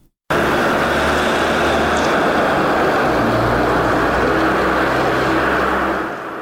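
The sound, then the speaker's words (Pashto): A car engine runs in Garmsir district, a steady, loud, broad rumble that continues unbroken after a sudden start, with no talk over it. “د الیاس تایی ریپورټ اورو چې د موټر په غږ پیلېږي”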